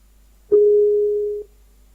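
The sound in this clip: A single steady, mid-pitched electronic beep lasting about one second sounds alone as a Skype call is redialed.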